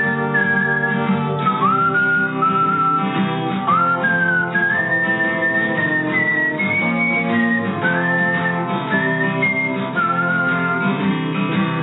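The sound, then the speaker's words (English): A person whistles a bright, high melody in a song, over steady instrumental backing. The tune moves in short rising and falling phrases and stays loud and clear throughout. “Is that you whistling? That is me whistling.”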